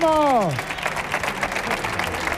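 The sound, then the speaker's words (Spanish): Audience applause for a singer on a comedy show, preceded by a short vocal note that slides downward in pitch, after which steady, dense clapping continues evenly to the end. “Fuerte el aplauso para Leticia Sabaté.”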